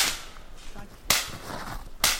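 Sharp cracks of a .22 rifle fired at a low live branch on a tree about 40 feet up: three brief, faint reports spaced about a second apart, each a quick snap over a quiet background.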